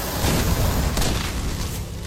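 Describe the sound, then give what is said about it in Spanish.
Mortar fire explodes during a World War II battle against German forces: deep, rumbling booms blend into a continuous roar, with one sharper blast standing out near the middle. “Como respuesta, Clark usa morteros para impedir que los alemanes avancen por la izquierda.”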